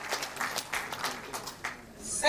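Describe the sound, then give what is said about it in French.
A jubilant crowd applauds and cheers at a protest, in a dense wash of clapping with crowd voices mixed in, surging loudest at the very end. “Le public est en liesse”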